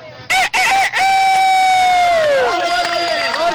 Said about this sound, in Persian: اما صدای خروس